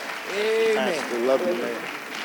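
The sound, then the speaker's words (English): An audience applauds to welcome guests at a church service. Continuous clapping runs under a voice that keeps speaking over it. “Give them a hand of welcome here.”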